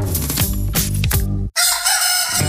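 A rooster crows loudly and alone, a bright, strained cock-a-doodle-doo with rich harmonic overtones, with no talk over it.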